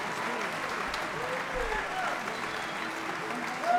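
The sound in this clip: An audience applauds to welcome a fiddle player at a concert, with a steady, even wash of clapping that stays fairly soft throughout.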